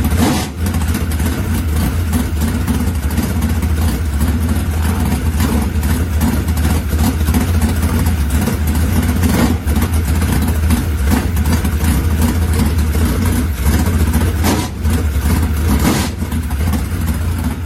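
Car engine with a big four-barrel carburetor, rated at 726 horsepower, runs loud and steady, a dense low rumble that holds throughout with little change in pitch; no voices.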